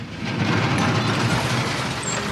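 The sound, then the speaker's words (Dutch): A garbage truck drives back and forth hauling rubbish in Amsterdam's Vondelpark. Its loud, steady engine rumble carries broad hiss, with a brief high squeak near the end. “Een chauffeur rijdt af en aan met vuilnis.”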